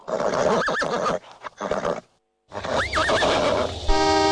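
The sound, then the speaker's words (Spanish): Loud whinnying from a horse balking while pulling a bottle collector's cart on a street: two bursts of high, trilling neighs split by a brief silent gap, the second longer and wavering, ending with a sustained tonal sound. “Pará, pibe, se le empacó el caballo.”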